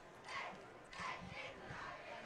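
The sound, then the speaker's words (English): Cheerleaders doing a cheer on a high school football field, faint rhythmic group shouting in a few chanted bursts with short pauses between them. “So now the cheerleaders take over the field to do their cheer.”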